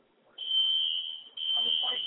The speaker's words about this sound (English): They should have shut this alarm off already.